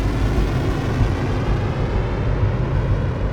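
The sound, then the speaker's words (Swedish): Two F-15 fighter jets are readied for takeoff at an Air National Guard wing in Oregon. A steady, loud, deep engine roar holds without a break throughout. “två F-15-plan görs snabbt klara för start”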